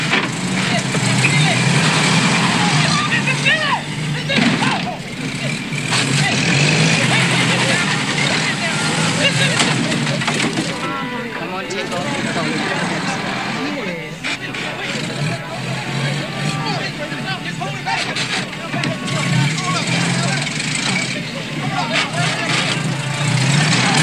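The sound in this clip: A car engine runs steadily while stuck in reverse during a driving lesson, its rumble continuing under talking voices for the whole clip.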